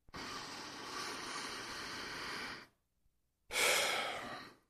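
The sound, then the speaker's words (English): Deep, slow breathing of about five seconds per breath: two loud, airy breaths separated by a brief silence, the first drawn out over a couple of seconds and the second shorter, with no speech. “I'd like to take a moment to just take a couple real deep breaths with you. Just 5 seconds in, 5 seconds out.”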